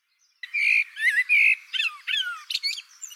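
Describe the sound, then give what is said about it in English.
A blackbird sings one phrase alone after a moment of quiet. It is a string of several warbled, whistled notes that ends in higher, squeaky twittering. “Researchers have studied the composition of blackbird songs,”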